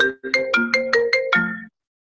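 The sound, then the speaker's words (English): A mobile phone ringtone plays a short bright melody of seven quick electronic notes, the last one held slightly longer, followed by silence. “Sorry, that's my phone going.”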